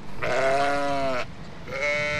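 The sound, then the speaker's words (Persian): Domestic sheep bleat in a zoo cage: one long, wavering bleat, then a pause and a second, shorter bleat. “این قفس همونطوری که میبینین از گوسفند هست، گوسفند.”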